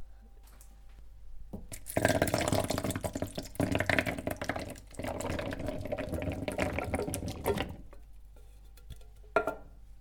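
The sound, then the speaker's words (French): Water runs steadily for about six seconds as canned chickpeas are rinsed with clean water in a colander, a loud, even splashing patter that cuts off abruptly, followed by a brief splash near the end. “On ouvre la boîte de pois chiches. On le met dans une passoire”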